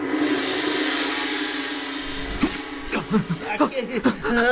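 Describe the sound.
Metal chains rattling on pleading prisoners, jangling clinks and scrapes that begin partway through after a steady hiss, mixed with voices talking.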